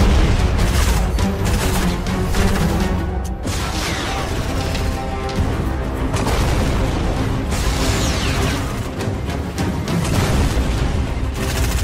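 Booming explosions from a rocket blast in the Fortnite video game, heavy and continuous, layered over dense, loud game noise throughout with no clear gaps between hits.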